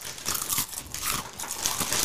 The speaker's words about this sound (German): Eine Minute kauen wir jetzt nur vom Mikrofon.